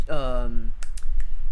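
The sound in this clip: Typing on a computer keyboard while looking something up: a brief voiced sound, then a few quick, sharp key clicks.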